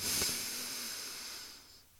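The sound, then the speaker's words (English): A slow inhale during a paced breathing exercise, heard as a quiet, airy hiss that holds steadily for about two seconds before tapering off. “I'm going to breathe in for 4 seconds”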